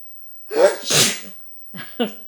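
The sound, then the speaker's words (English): A single loud, forceful sneeze breaks into a talk, followed by a few shorter, softer breathy sounds. “I'm sorry, I get sneezing.”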